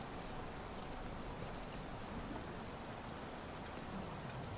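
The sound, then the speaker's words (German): Rain in a video game, a faint, steady hiss of falling water that stays completely even from start to finish, with no single drops or thunder standing out. “Jetzt auch so schon im Regen”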